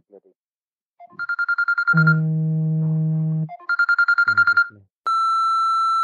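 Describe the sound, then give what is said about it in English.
A phone alarm goes off: a run of quick pulsed beeps, then a steady lower buzzing tone, another burst of pulsed beeps, and finally a sustained steady tone, all loud and clear. “That was my alarm telling me to get out of bed because I've gone to bed.”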